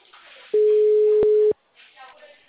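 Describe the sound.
A telephone call tone sounds while a call is placed to unblock a card's credit and withdrawal functions: one steady, flat, mid-low beep lasting about a second, with faint muffled telephone-line voices before and after.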